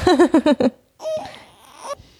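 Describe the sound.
A fussy baby cries in a run of short, whiny, rhythmic bursts, then trails off into softer breathy fussing and faint noises.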